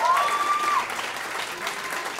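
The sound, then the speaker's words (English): Audience applause, a dense burst of clapping from a crowd that stays fairly even for about two seconds, with a brief faint whistle-like tone near the start. “Yes, clap.”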